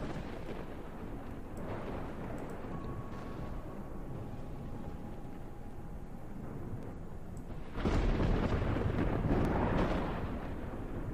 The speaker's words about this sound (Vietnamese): Trên bầu trời sấm chớp đùng đùng, ấy thế nhưng tuyệt nhiên không có lấy một giọt mưa.